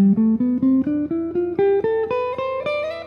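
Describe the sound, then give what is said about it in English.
A Phrygian mode scale rises from E up to E in the key of C major, played as a steady ascending run of separately struck notes. Each bright, ringing tone decays briefly before the next, with no voices. “The Phrygian mode is just starting on the third tone of the major scale and ending on the third tone. So in this case, in the C major scale, it's starting on the E and ending on the E, right? So it sounds like this.”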